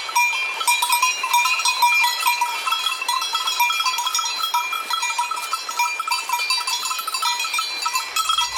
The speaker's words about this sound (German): Andere warten auf die große Herde, die endlich angetrabt kommt.